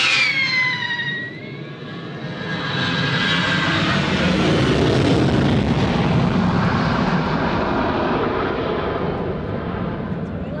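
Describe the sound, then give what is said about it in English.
Airplane taking off from the runway at Sitka, Alaska, on a noon departure to Ketchikan. A loud, sustained engine roar with high whining tones at the start, holding steady and strong to the end. “Safe departure. And in Sitka, there's another successful takeoff without a fragment of snarge in sight.”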